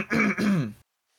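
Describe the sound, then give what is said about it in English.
A person clears their throat: two gruff, voiced rasping bursts in quick succession, loud and close, followed by sudden silence. “Sort of puffs out his chest, clears his throat.”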